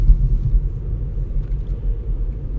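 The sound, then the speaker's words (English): A car driving around the Bay Area makes a steady, low, loud engine and road rumble that holds without a break, with no voices. “Currently driving around the Bay Area, wrapping things up.”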